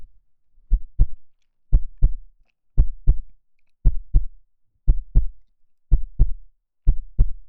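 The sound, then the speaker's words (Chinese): A heartbeat of anticipation thumps in seven deep, evenly spaced lub-dub pairs, each double beat low-pitched and soft, with silence between. “这是期待的心跳”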